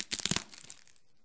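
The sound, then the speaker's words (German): A crisp, crackling snap as a sheet of matzah is broken in half, a quick cluster of brittle cracks lasting well under a second, then quiet. “Diese Matze wird gebrochen.”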